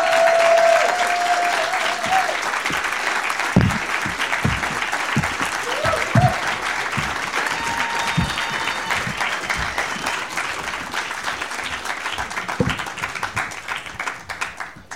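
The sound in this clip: Studio audience applause welcoming three guests onto a talk show stage, a dense, steady wash of clapping that holds at a fairly even level for the whole stretch.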